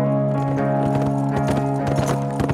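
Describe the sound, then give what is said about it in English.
Clip-clop of horse hooves pulling a buggy, many quick steady hoofbeats sounding continuously and fairly loud throughout, with a sustained steady tone running underneath. “That is Senorita Hanks' buggy. I have seen her in it several times.”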